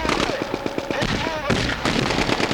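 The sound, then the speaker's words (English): Machine guns rattle in rapid staccato bursts on a military live-fire infiltration course with dirt and barbed wire, loud, dense and continuous, with heavier cracks breaking through the chatter. “The staccato of machine guns. TNT charges exploding just feet away.”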